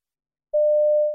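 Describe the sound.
A steady electronic beep on a phone information line, a single pure mid-pitched tone that starts after a short silence and holds level to the end.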